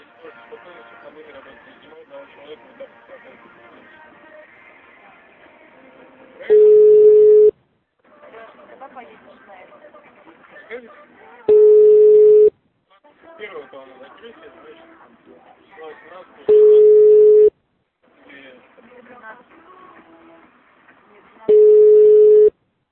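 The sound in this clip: Telephone line tones while calling back: four steady, low, one-second beeps spaced evenly about five seconds apart, with quieter voice-like sound filling the gaps between them.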